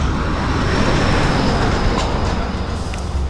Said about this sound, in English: And a truck drives by.